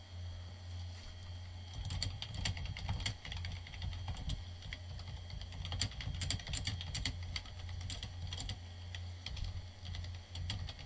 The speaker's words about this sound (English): I have the noisiest keyboard ever.